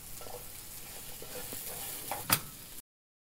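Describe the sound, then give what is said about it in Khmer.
Garlic fries in a pan with a steady, faint sizzling hiss. Near the end a sharp scrape of stirring is heard, then the sound cuts off. “យើងអំពងខ្ទឹមដាក់ដូចហ្នឹង”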